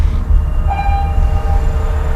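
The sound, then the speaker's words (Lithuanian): A freight train passes near houses beside a port railway line, a loud, continuous low rumble with a thin, steady high tone riding above it. “Maždaug kelios dešimtys metrų skiria Domarkų namus nuo krovininio geležinkelio”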